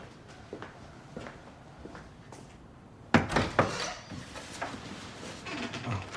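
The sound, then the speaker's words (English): Footsteps cross a house toward a bedroom door: a few soft, faint steps, then a sudden burst of louder thuds and rattles as the door is reached and handled. “Elliot stands and walks over to Joey's bedroom door.”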